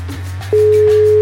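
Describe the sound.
A telephone line tone sounds while a phone number is called: one steady, clear tone starts partway through and holds unbroken over a low, constant hum.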